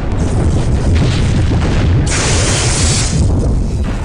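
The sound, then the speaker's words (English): Heavy explosions from a warship's missile fire make a loud, sustained rumbling roar, with a brighter and harsher blast bursting out in the middle before settling back into the deep rumble. “Incoming missiles detected.”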